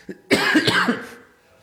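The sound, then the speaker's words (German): A single loud cough: a brief catch, then a harsh voiced burst of a few pulses that fades out within about a second. “Da ist schon wieder der Husten.”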